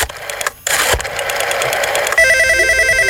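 A telephone line ringing after a number is redialed: a stretch of rough, hissing line noise gives way to a warbling, pulsed ring tone that carries on to the end.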